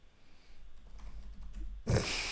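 Faint typing on a computer keyboard, a quick run of soft clicks followed by a brief louder burst of noise at the end.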